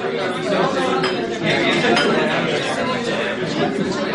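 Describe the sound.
Dishes and cutlery clinking at a large dinner table as guests sit ready to eat, a continuous jumble of clinks mixed with overlapping chatter.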